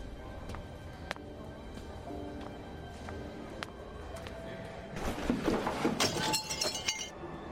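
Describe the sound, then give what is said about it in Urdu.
A picture frame drops and breaks: a sudden burst of brittle clattering and bright tinkling shards rises out of a quiet, faint background and scatters for about two seconds before thinning out. “یہ کیوں کیا تم نے frame کیوں گرا دیا تم نے کوئی بات نہیں فریم ہے”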